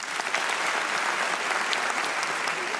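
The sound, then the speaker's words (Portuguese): An audience at a stand-up comedy show claps in answer to a question, a steady, even stream of many hands holding at a constant level for about three seconds. “Quem aqui já comeu carne de coelho? Bate palma.”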